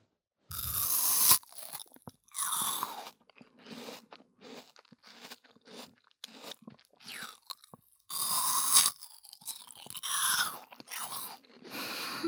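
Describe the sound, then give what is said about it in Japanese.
Crisp biting and chewing of a fresh apple: two loud, sharp crunching bites stand out, with many smaller rhythmic crunches of chewing between them. No talk. “ほら、いい音するよ、リンゴ。”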